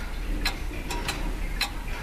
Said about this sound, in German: So eine Standuhr aus Holz gab es auch im Wohnzimmer meiner Großeltern. Mein Großvater hat sie aufgezogen. Heute müssen manche den Umgang erst neu lernen. Richtig eingestellt gehen diese mechanischen Uhren ganz genau.